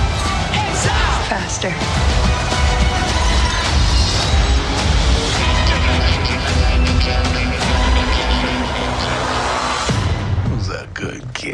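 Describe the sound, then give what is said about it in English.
Loud, dense movie trailer soundtrack, a continuous wall of music and effects with voices, holding steady before dropping off abruptly near the end. “perhaps one of the worst trailers that I've ever seen in my entire life”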